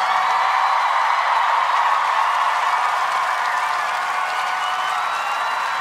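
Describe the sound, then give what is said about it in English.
A large concert crowd at a benefit show in Manchester applauds and cheers for first responders and bystanders, a loud, dense, unbroken wash of clapping and crowd noise that stays level and then eases slightly toward the end. “We also want to thank the Manchester first responders and all the bystanders who are probably here tonight, who risked their lives to save others. Please give a round of applause to them.”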